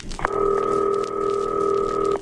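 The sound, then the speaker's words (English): A telephone call to a caterer in Chicago sounds as one steady, unbroken line tone that holds evenly for about two seconds on its own. “Now, we're going to call Chicago tonight. We're going to call a caterer there.”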